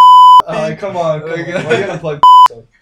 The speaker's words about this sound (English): I'll beep it out.